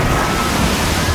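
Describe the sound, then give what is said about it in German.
Water splash heard as a loud, dense rush of watery noise that holds steady for about a second. “Also achtet auf diesen Wasserplatsch hier.”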